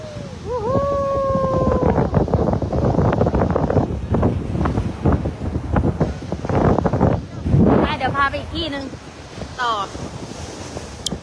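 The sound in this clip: Gusting wind and surf on a cold seashore roar steadily through the whole stretch, with people talking over the constant rush.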